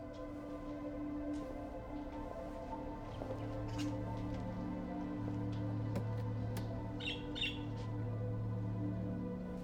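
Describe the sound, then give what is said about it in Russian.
Three small colorful caged birds give faint scattered squawks and chirps, mostly late in the stretch, over a steady low hum. “Зайдя за прилавок, она видит клетку с тремя маленькими разноцветными птицами.”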